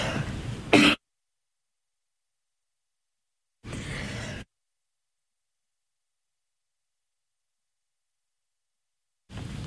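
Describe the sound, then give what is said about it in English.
Throat clearing and coughing from one person, heard as three short, rough bursts separated by silence, with the last burst cut off at the end. “Sorry, I had something in my throat.”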